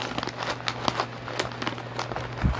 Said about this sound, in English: We're eating banana chips up here. Sponsored by Banana Chips. From Trader Joe's. That Trader Joe's banana chips.